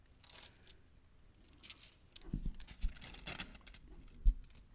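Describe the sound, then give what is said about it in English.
Post-it notes peel away from Bible pages in faint, papery crinkles and rustles. A few sharper little tearing snaps come through near the end. “I'm not ripping pages out of my Bible. It's these post-it note things. Although it is coming out.”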